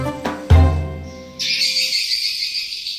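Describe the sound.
Swiftlets, small swallow-like birds of the swift family, call with a couple of low tonal notes. A steady high, buzzing chirr follows and continues to the end.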